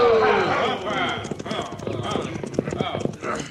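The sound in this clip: Clip-clop of several horses' hooves as riders approach: a steady, rhythmic patter of many sharp knocks that keeps up throughout.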